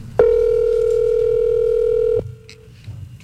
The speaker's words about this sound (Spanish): Está timbrando.